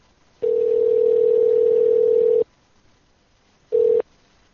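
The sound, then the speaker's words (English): Ringback tone of an outgoing phone call to a tattoo shop: a steady, even tone lasting about two seconds, a pause, then a second tone cut short, with no voices. “All right, we're going to call Wacky's Tattoos here.”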